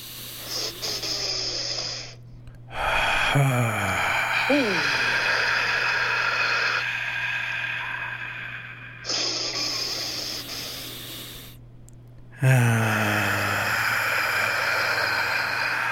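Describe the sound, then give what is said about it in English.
Deep breaths taken during a breathing exercise: a few long, loud, breathy rushes of air separated by short pauses, with voiced sighs at some of the breaths. “Last one, deep breath.”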